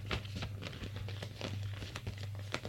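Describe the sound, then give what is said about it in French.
Paper crinkling and rustling as a newspaper is folded, a quick series of crisp, dry bursts over a steady low hum. “Il plie son journal.”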